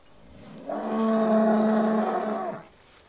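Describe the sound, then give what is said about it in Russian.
A bull gives a single drawn-out, low moo at night in a cemetery. The call holds a steady tone for about two seconds and is heard alone, with no talk. “Что это было? Корова. Бык.”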